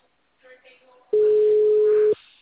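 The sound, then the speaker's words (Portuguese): A steady, loud phone signal tone after a dropped call holds one pitch for about a second, then cuts off abruptly, following faint talk. “Tá caindo a ligação, tá feio a coisa aqui. O número não responde.”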